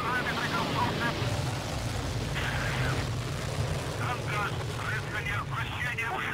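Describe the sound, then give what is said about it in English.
Deep, continuous roar of a Russian Soyuz rocket launching at a launch facility in Kazakhstan: a loud, steady low rumble that fills the whole clip while voices talk over it. “a Russian Soyuz rocket blasted into the sky”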